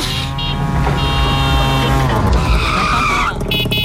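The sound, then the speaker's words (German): A tuk-tuk auto rickshaw drives by: a loud, steady motor drone topped by a high, squealing tone, its pitch shifting near the end of the short run, with no talk. “Und das Tuk-Tuk klingt ja so.”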